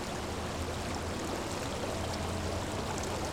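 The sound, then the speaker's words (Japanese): Hot spring water flows in a soft, continuous rushing trickle that stays faint and even throughout, with no voices. “これは温泉のお湯です。”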